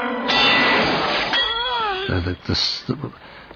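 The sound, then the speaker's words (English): Sword breaking in an angry moment of an Arthurian film scene as Excalibur shatters: a loud metallic crash with bright clinking and shattering, followed by a wavering voiced cry and other voices. “And out of this anger, he breaks the sword.”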